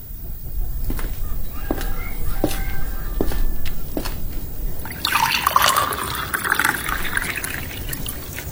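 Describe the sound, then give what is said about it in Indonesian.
Water is poured for drinking, a bright, steady splashing trickle that begins midway and continues to the end, after a series of soft clicks and knocks. “Tolong ambilkan Ibu air. Ibu haus sekali.”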